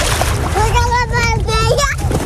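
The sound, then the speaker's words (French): Children splashing in water to cool off on a hot day, a continuous busy splashing and sloshing with excited young voices calling over it throughout. “Les enfants qui profitent de l'eau pour se rafraîchir.”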